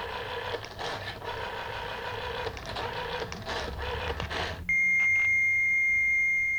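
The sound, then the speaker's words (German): A dial-up mailbox modem squeals over a telephone line. Several seconds of rough, hissing noise with buzzing bursts give way to a steady, piercing high whistle tone that holds to the end. “Das vertraute Mailbox-Fiepen.”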